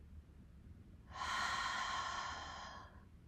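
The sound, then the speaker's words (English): One long exhale through a wide-open mouth empties the lungs in a steady, breathy rush of air lasting nearly two seconds before it fades, with near quiet before and after. “Open your mouth and completely exhale all of the air out of your lungs.”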